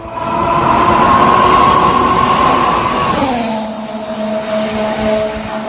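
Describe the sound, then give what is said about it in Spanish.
A McLaren Formula One car's engine sounds as a loud, sustained, high whine over a rumbling roar. Its pitch drops noticeably about midway, then carries on steadily at the lower pitch. “Hoy ha comenzado a rodar el nuevo McLaren de Fernando Alonso. Sabemos que es naranja y sabemos cómo suena.”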